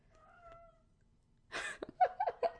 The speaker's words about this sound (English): That's my cat, by the way, if you can't hear him. He's like meowing like crazy.